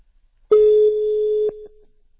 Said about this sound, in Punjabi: ਮੈਂ ਉਹਨਾਂ ਨੂੰ ਰਿੰਗ ਮਾਰ ਦਿੱਤੀ, ਉਹਨਾਂ ਮੈਨੂੰ ਬੈਕ ਕਾਲ ਕਰ ਲੈਣੀ ਹੈ ਜੇ।